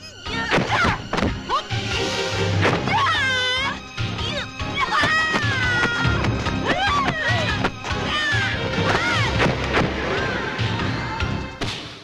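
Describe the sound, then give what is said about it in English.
Kicks landing on a stunt double in a fight scene from a 1990 martial arts film: a few sharp thuds and whacks within dense, loud action sound, with shrill cries and shouting voices. “But Joyce definitely actually hit whoever that was. Boom, boom, boom! 3 kicks.”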